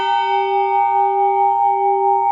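A church bell tuned to G rings out, meant to hang in harmony beside a restored 1849 bell in a wall belfry; one loud, steady, sustained tone with bright overtones holds for the whole clip.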